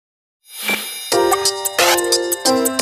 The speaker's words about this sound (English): Sometimes the ringtones are funky, sometimes they're funny, sometimes they're silly, sometimes they're like this. Yeehaw, sure thing, it's the sound of your phone ringing.